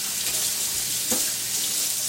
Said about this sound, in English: let me wash my hands a bit